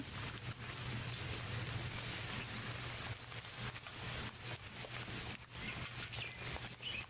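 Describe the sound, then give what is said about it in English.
Rain falls in a steady, dense hiss of drops, continuous and fairly loud throughout with no voices. “I'm still looking up at the sky, just... rain falling.”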